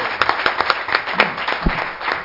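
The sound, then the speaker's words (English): A church audience claps in praise, many sharp hand claps landing in a lively, uneven rhythm at moderate loudness. “Let's give you one more hand clap.”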